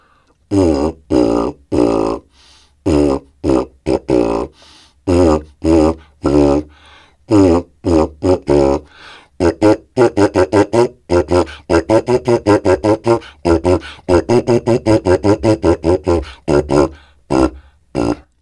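A brass mouthpiece buzzing Three Blind Mice with a forced, closed tone: many short, pitched, reedy notes in the nursery-rhyme rhythm, growing quicker and more clipped toward the end.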